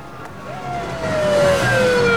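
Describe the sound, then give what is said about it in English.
A car braking hard and coming to a halt as a bulldozer crosses in front: a long, slightly falling tire squeal over a rumbling engine that grows louder toward the end. “Batman brakes. Just in time, the Batmobile comes to a halt.”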